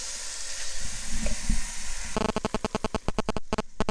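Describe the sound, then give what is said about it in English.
Vegetables cooking in a pan as the base for a stewing-steak dish, a steady sizzling hiss that gives way to a quick run of many rhythmic scraping stirs. “the second stage, we're going to cook the vegetables off, which are going to be the base. So for now, I'm just stirring these off, ready for tomorrow's lunch.”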